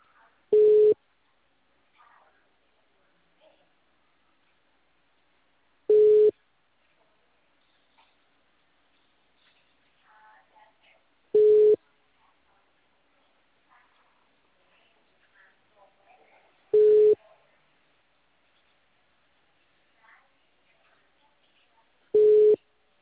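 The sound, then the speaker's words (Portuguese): Telephone tone beeps after a dropped call: five short, steady mid-pitched pulses spaced evenly several seconds apart, with only faint low murmurs in the gaps between them. “Aqui é o Ademir, a ligação caiu.”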